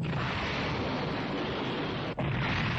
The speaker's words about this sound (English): And that's going to be a big shot. As the Cyclone Pulse Rifle goes off,